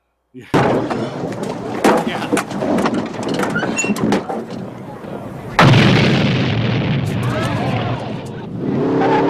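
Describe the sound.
Explosions and gunfire from a 1984 action film scene where a bomb goes off and police give chase, with many sharp loud bangs, a heavier blast about halfway through, and a dense roaring rumble that continues afterward.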